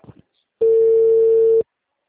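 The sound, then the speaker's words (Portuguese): Ringback tone of a phone call placed to a mobile: a single loud, steady, mid-pitched tone lasting about a second, with a brief faint sound just before it. “E chama aí no celular dele.”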